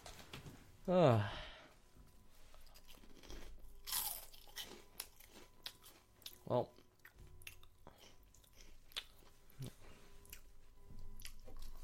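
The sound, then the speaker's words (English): Someone eats a snack called knobs, crunching and chewing: one loud crisp bite near the start, then many softer irregular crunches and wet chewing sounds. “I'm gonna eat some knobs while he's gone.”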